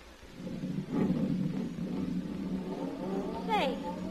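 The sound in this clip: A car drives off, its engine rumbling and roaring steadily beneath people talking, with a short sweeping whine near the end.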